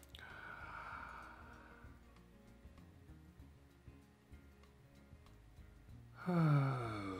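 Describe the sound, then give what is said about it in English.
A deep breath drawn in, held, then let out during a group breathing exercise: a soft breathy inhale, several seconds of near quiet, then a louder, voiced, sighing exhale near the end. “Let's just take a deep breath, hold it for whatever amount of seconds we want, and then we'll exhale it for whatever seconds we want.”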